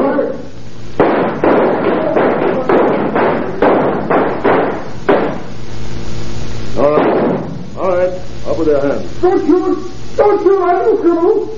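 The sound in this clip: Gunshots ring out in a street shootout: a loud volley of many sharp bangs fires in quick succession, then shouting voices take over as scattered shots continue.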